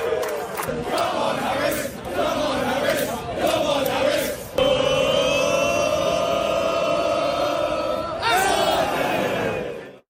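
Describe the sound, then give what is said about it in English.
Dozens of England football fans chant at a baseball game, cheering on Atlanta Braves outfielder Michael Harris II. The loud, sung crowd chant includes a long held note in the middle before the singing resumes. “Classic football chant, except it's at a baseball game. It's baseball chanting by football fans. It's a classic baseball football chant. That was the sound of dozens of England fans cheering on Atlanta Braves outfielder Michael Harris II.”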